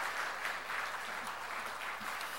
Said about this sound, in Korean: 박수하겠습니다. 고맙습니다.